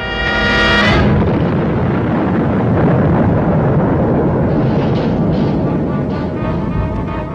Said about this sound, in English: No rocket can rise anywhere in the world. 4, 3, 2, 1, fire!